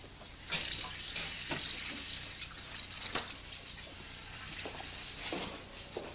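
Faint running water from a tap as someone washes up, a soft steady flow with a few light knocks and splashes scattered through it.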